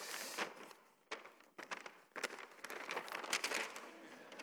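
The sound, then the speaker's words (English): Paper map being folded by hand, faint rustling and crinkling with a few sharper crackles as the sheets are creased. “Now I'm going to have this moment where it's really hard to fold a map, isn't it? So I'm going to try and do that.”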